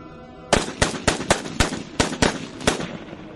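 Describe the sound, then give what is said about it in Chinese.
Gunfire rings out in a rapid burst of sharp, loud, cracking shots, many in quick, slightly uneven succession, with no voices. “手中的枪也响了起来”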